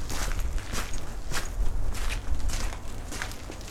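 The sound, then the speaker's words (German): A video game character walks into a cave with many evenly spaced footsteps, each a crisp crunch, heard alone with no talk. “Ich werde jetzt mal in die Höhle hineingehen.”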